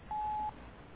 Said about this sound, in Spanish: Cuando escuche el tono, por favor, grabe su mensaje.